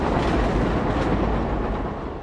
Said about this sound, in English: And the train passes.